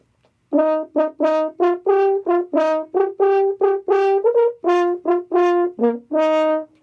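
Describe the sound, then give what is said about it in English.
A valveless horn fitted with a longer crook of tubing to pitch it in E flat plays a brisk tune of many short, separated notes in a clear, brassy tone, heard alone. “Now you'd have an E flat horn, it would sound like this.”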